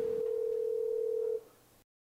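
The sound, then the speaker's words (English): A telephone dial tone sounds while a call is being placed. The steady, single-pitched hum holds for over a second, then cuts off, leaving a faint residual noise before silence. “I'm gonna call him.”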